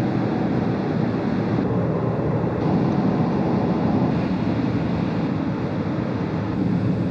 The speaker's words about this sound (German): Wir fahren die ganze Zeit jetzt so zwischen 180 und 200. Hochkonzentriert. Die Autobahn lässt es so.